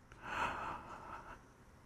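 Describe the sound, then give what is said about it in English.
A deep breath in during a guided breathing exercise: a soft, steady, airy rush that swells and holds for about a second before tapering off, faint and alone. “Take a deep breath in.”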